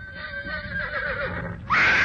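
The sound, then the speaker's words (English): A horse whinnies as it shies: a wavering, trembling neigh that ends in a sudden, loud, bright squeal. “As the girl mounted the horse, a big ringmoles slithered from the bush right under Crusader's forelegs. The horse shied.”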